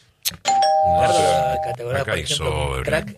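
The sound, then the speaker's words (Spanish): A radio time signal sounds as one steady, pure electronic beep held for a little over a second, followed by people talking. “Mirá, ahí está sonando el top.”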